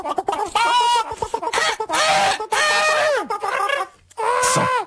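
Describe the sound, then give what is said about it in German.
Rooster crowing: four loud, harmonic calls in quick succession, each a drawn-out tonal cry, with short gaps between them. “Und da kommt der Hahn, nicht?”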